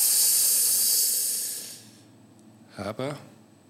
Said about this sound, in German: Noch drei Atemzüge. Tief einatmen.